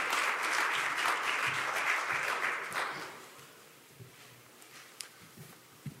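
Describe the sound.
Audience applause welcomes a speaker with dense, steady clapping that holds for about three seconds, then thins out to a few scattered claps.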